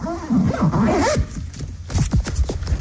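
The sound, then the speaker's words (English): The zipper of a school bag is pulled open in a few quick, rasping strokes, fairly loud and with no voices. “Opening a zipper of a school bag.”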